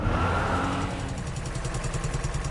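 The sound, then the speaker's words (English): A car engine revs hard while its clutch burns out, giving a loud, sustained roar that settles into a throbbing, pulsing drone. “You burnt out the clutch, you stupid woman.”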